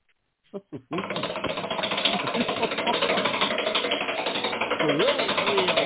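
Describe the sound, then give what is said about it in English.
A prize wheel is spun: two separate clicks, then a fast, steady ratchet of ticking that keeps going for several seconds, with a voice faintly under it. “Let's grab the wheel, and together we'll spin to win.”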